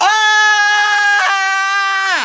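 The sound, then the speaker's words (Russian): A woman's shrill scream, one steady high cry held for about two seconds with a brief waver partway through, its pitch dropping away at the very end. “Тоненько визжит она. «Сильнее кричи!»”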